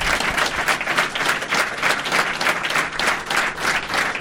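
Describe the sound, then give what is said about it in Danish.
A studio audience at a Danish talk show applauds a guest: dense, steady clapping, fairly loud and even throughout, with no talk over it. “Mine damer og herrer, giv en kæmpe hånd til en juleprepper. Giv ham en hånd.”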